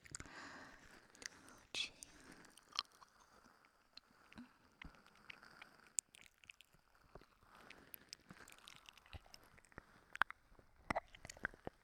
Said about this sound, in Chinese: 在你的耳边吃，我要诱惑你， 我看你吃不吃。